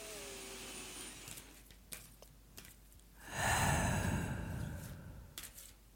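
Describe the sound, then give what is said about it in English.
A single deep breath, heard as a loud, airy rush that swells and lasts about two seconds after a few faint clicks, with no talk. “let me have a bit of a breath and take a breath with me if you like”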